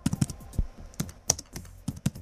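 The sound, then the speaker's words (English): Computer keyboard typing as a postcode is entered into a web browser box: a quick, irregular run of many crisp key clicks of varying loudness. “type in your postcode into that box there”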